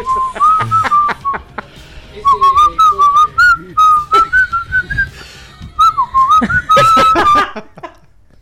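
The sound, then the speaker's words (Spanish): A person whistles a quick, wavering tune of many short notes broken by brief pauses. The pitch bends and slides between phrases, with no talking over it. “Chiflá, chiflá.”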